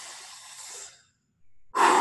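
Deep breathing exercise: a long, airy breath lasting about a second fades out, then after a brief silence a louder, forceful breath starts abruptly and rushes out strongly.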